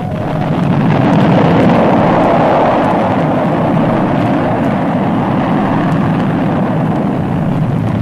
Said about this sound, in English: Shuttle requests clearance for rocket ignitions. Stabilize attitude 3 degrees. Attitude corrected. Hold. Fire!